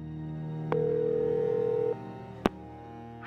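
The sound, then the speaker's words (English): Telephone line tones as a call is dialed: a low hum, a click, then a steady tone lasting about a second that stops, followed by a single sharp click and faint noise rising at the end. “the line rang with no answer. Then she dialed the last person she could think of, Floyd Zick.”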